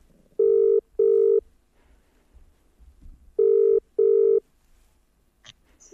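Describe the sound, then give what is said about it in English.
A telephone ringback tone plays as a call is dialled to a New Zealand MP: two double-ring bursts, each a pair of short steady tones, separated by a pause, with a faint click at the end. “So Checkpoint dialed her up.”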